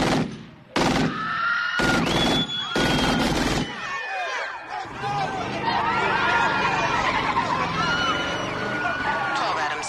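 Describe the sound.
Gunshots fired on a street corner, several loud sharp bursts in quick succession, then frantic shouting voices carry on over a noisy background.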